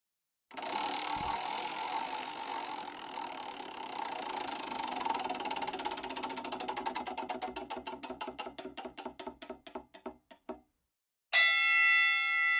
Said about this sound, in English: let's dust off the wheel here. A lot of cobwebs on it. I hope it will spin.